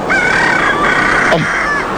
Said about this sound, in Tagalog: Babatian ko na ang pagpanukturuok sa mga manok. Kagahon ang ginini.